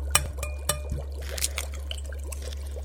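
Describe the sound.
Liquid poured from an opened tube into a mixture, heard as a faint trickle broken by a few small clicks and splashes over a steady low hum.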